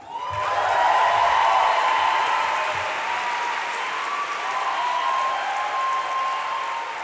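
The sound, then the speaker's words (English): A large audience at the Webby Awards ceremony applauds in a dense, sustained wash of clapping that holds steady for about seven seconds, with no voices over it. “Perhaps the biggest applause of the night was for the artist Mr. Wash, who was wrongfully imprisoned for 21 years before being granted clemency by President Obama.”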